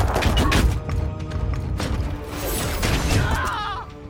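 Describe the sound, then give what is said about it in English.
Video game gunfire, many rapid shots and heavy thuds packed tightly together, loud and continuous before tapering off at the end. “I'll just basically go up to him and take the damage here. Opening fire!”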